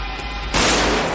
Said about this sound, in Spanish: le abate de un tiro en la frente